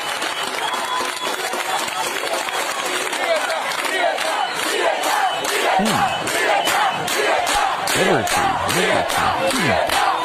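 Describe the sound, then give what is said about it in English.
A Cuban crowd chants loudly in unison, many voices pushing a steady, driving rhythmic pulse that carries on throughout with no break. “Here's another Cuban group chanting.”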